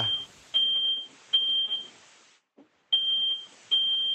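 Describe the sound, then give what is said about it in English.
A smoke detector beeps in a home with loud, high-pitched electronic tones in a few sustained bursts, broken by a brief silence partway through. “Yeah, that's our smoke detector.”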